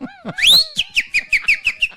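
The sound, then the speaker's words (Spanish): Person whistling: a sliding, rising opening note, then a quick run of many short, high chirping notes in an even, bouncy rhythm, loud and unaccompanied. “Ay, claro, usted le toca silbar siempre. Tengo que silbar obligatoriamente.”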